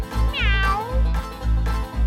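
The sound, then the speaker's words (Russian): One drawn-out cat meow slides downward in pitch. It sits over a steady, pulsing music beat with a deep, regular bass. “Кошечка, кошечка мяу-мяу-мяу, кошечка мяу-мяу-мяу, кошечка мяу-мяу-мяу. А я кошка.”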